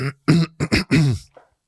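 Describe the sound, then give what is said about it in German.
A person clears their throat in a few short, voiced, rasping bursts, fairly loud, with no words spoken. “Also ich war jetzt kein dramaturgisches Räuspern, sondern ich musste mich einfach nur räuspern.”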